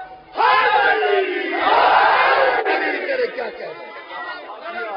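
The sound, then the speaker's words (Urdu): A large crowd at a religious majlis shouts a slogan together. After a brief quiet moment, a loud surge of massed voices rises, holds strongly, then eases slightly toward the end. “بلا آسمانی نعرہ سارے مل کے Najaf تک آواز جائے”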